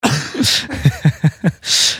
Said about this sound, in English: Also, sorry, I'm like coughing nonstop.